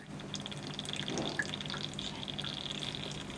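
Steady dripping and trickling of floral water, carrying essential oil, from a steam distiller of aromatic plants, a continuous soft liquid patter over a constant background hiss with no voices.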